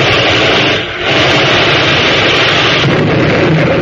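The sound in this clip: Gunfire blasting an enemy apart in aerial combat, heard as a loud, dense roar of explosive noise that briefly dips once and then surges back, sustained throughout with no voices.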